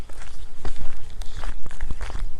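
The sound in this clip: Footsteps on an outdoor walk: a steady run of many crunching steps at an even walking pace, with no talk.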